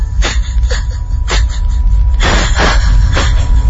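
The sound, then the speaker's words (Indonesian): Heavy panting breath of someone who has just hurried into a lift, a series of harsh, airy huffs in an uneven rhythm over a steady low rumble. “Nafasku terengah-engah.”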